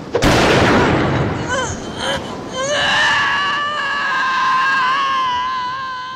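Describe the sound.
A gunshot in a film fight scene: one sharp, loud bang at the start, followed by a wavering, strained cry that trails off.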